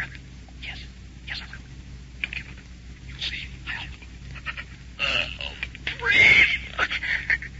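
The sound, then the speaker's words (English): A dying man draws spasmodic, gasping breaths: a few ragged, rasping gasps in the latter half that stand out above a quiet, hissy background. “A breath, doctor. Spasmodic. Probably his last.”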